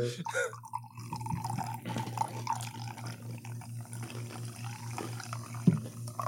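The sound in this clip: Soda, a light purple Mountain Dew flavor, poured into a cup, a steady trickling splash with a few scattered drips over a constant low hum.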